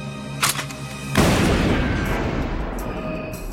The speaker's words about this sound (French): Un dragon céleste tire sur Okji et le blesse.